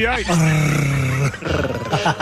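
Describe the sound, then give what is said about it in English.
A man imitates a beast with his voice, a low, rough, roar-like vocal growl drawn out in two loud bursts. “you growling like that is so off-putting”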